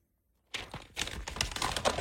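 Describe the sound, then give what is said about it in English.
A paper sheet being crumpled and ripped gives off a dense, crackling rustle that starts abruptly after half a second of silence and continues busily to the end. “Oh, crumpling of the sheet. Tossing. Oh, then there's ripping going on.”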